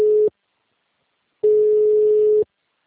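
Busy signal after a dropped phone call, a steady low electronic tone sounding alone. A brief burst at the start cuts off, then after a pause of about a second a longer, louder burst follows.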